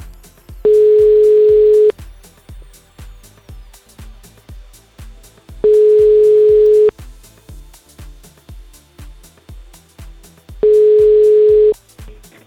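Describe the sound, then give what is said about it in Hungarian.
A telephone line rings on a radio call-in, with three steady, even-pitched ring tones of about a second each, spaced evenly over a rhythmic music bed. “és mindjárt kicseng a telefon valahol”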